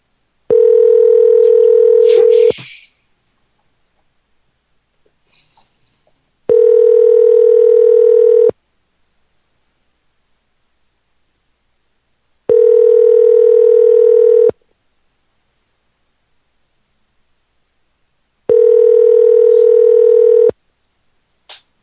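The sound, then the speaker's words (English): Telephone ringing tone on a call back after a dropped call: four long, steady, even tones of about two seconds each, separated by longer gaps of silence, with no voices. “I'm going to call him back here real quick and say, I think we got disconnected.”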